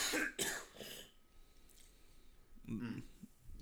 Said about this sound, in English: Oh, what happened to you? You got a little phlegm.